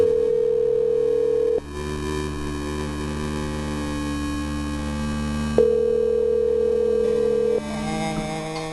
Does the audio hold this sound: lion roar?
no